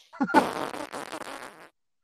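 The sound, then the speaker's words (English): A mouth-made fart sound, a loud, sustained buzzing raspberry with a fluttering, rattly texture that lasts over a second before stopping, heard on its own. “Did your mouth just fart?”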